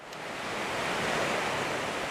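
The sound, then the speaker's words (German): Sea waves on a windy beach make a steady rushing wash of surf mixed with wind. The noise swells gently and stays even, with no voices. “Es ist ein windiger Spätsommertag, irgendwo am Meer, sagen wir mal, auf Jüst, und Sie laufen die Dünen zum Strand hoch.”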